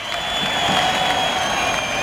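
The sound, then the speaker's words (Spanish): Bullring crowd at a bullfight applauding and cheering to demand a pardon for the bull, a dense, steady roar of clapping and voices that stays loud throughout. “el público está pidiendo el indulto. De hecho, sale alguien en un burladero vestido de calle, no sé quién es. El público pide el indulto.”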